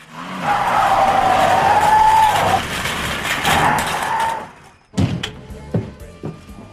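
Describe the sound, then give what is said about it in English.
A car drives with skidding, squealing tire noise and a steady whine for about four and a half seconds in a film scene, followed by a few sharp knocks and clatter. “Emily drives around and ends up in a roadhouse bar.”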